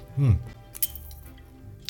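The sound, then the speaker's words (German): Beer glasses clinking in a toast: a short, bright clink following a brief voice, with a fainter tap near the end. “Jetzt noch erst nochmal ein schönes Prost, ne?”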